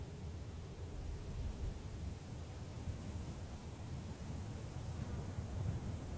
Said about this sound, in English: The sounds of fauna die off, and all that is left is the sound of the wind blowing through the trees.